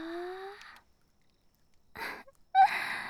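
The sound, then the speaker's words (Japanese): A soft, cute yawn in a calm whispered bedtime setting: a drawn-out breathy voiced sound that fades into silence, followed by a couple of short airy exhalations. “あくび可愛らしいです。”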